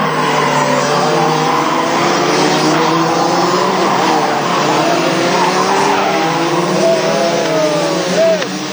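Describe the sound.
Go-kart engines roar at a junior kart championship race in Ipswich near Brisbane, Australia. Several high, whining engine tones overlap in a loud, steady drone that carries on without a break.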